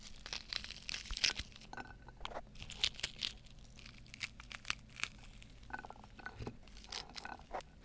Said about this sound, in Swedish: Det här är ju bara kärnorna man ska äta upp. Och de är ju rätt äggiga.